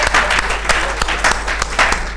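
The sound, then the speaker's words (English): A church audience claps for the Lord after a sermon. Many hands beat together in a sustained, fairly loud round, with a few sharper claps standing out from the continuous patter. “Let us give clap of into the Lord who has spoken to us.”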